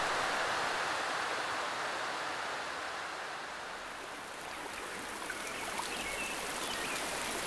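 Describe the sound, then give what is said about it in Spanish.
Rain falling steadily and heavily, a dense, even hiss that never breaks, with only slight swells in loudness. No voices. “dijeron que en estos días dejaba de llover. Pero está lloviendo más.”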